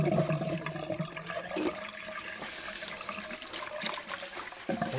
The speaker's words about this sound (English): And the pan, I put the pan on to soak overnight. As you can hear, I've just washed it up.